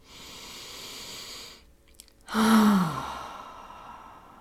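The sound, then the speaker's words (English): A deep breath: a long breathy intake, a brief pause, then a loud sighing exhale with a voiced tone that falls in pitch and trails away, heard alone. “take a deep breath. Let's do that now.”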